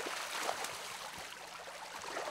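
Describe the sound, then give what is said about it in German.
Water drains out through the opened outlet of a carp pond, a steady, even rushing wash with faint gurgling that stays quiet and unbroken throughout, with no voices. “Fischwirt André Albers öffnet den Abfluss von Teich 31. Das Wasser muss raus.”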